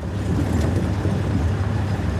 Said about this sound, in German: Diesmal fahren sie in einem Jeep.